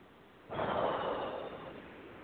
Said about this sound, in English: Take a nice deep breath.